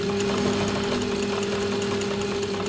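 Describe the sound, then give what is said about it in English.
A machine sewing a shirt gives off a steady mechanical drone with a constant humming tone and a fine, rapid rattle. It runs unbroken and fairly loud from start to finish. “This is the sound of your next shirt being made.”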